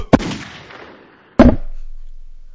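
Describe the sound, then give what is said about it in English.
Two sharp gunshot-like bangs fired at an Xbox logo, each cracking loudly and then trailing off in a long fading tail, the second coming just over a second after the first, with no voices. “How will shooting the Xbox logo help? It'll make me feel slightly better.”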